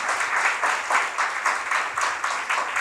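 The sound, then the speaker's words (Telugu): Church audience clapping loudly in unison to glorify God: a steady, rhythmic beat of many hands striking together in regular pulses, roughly two per second, repeating evenly throughout. “ఒకసారి గట్టిగా చప్పట్లు కొడుతూ దేవుడిని మహిమపరుస్తామయ్యా”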